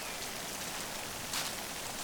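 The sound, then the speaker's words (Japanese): Rain falling in a steady, dense hiss that stays even throughout, with one slightly louder patch of drops just past the midpoint and no voices. “それに、この辺りの雨は結構長引くんですよ。”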